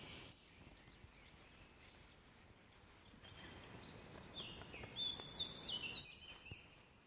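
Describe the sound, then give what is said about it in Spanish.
A kingfisher calls to announce caught prey, a few thin, high chirps near the end that rise above an otherwise quiet, soft background. “Un llamado anuncia una presa.”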